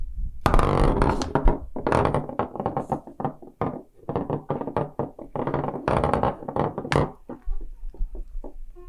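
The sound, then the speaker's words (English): A 120-sided die tumbling across a surface, giving a long, loud, rapid run of knocks, thunks and taps that thins out toward the end. “Only the 120-sided die can tell us. Okay, here we go. Rolling the die.”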